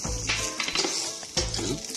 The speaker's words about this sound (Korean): Now we can cook the onions and the garlic. 우리 양파 넣을 거예요. And our garlic, 우리 마늘도 들어가요.